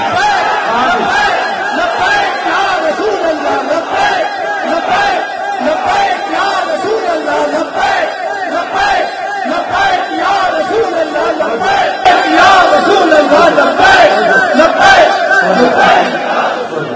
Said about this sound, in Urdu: لبیک دا نعرہ لایا تے کی لایا آج نعرہ لا اے سٹیڈیم ہلے